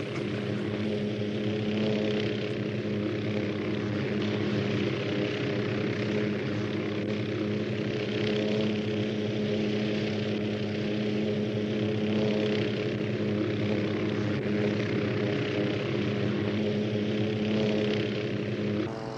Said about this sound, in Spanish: Helicóptero SP. Sí, es particular, sin marca, sin armas, pero su apariencia engaña a distancia.